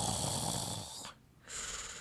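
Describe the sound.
A voice imitating a heavy man snoring in a cinema, two faint raspy breaths with a short silent gap between them.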